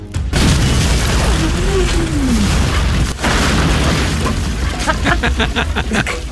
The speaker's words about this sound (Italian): Poi una bomba a mano in tasca, ma anche lì... Per il Vietnam!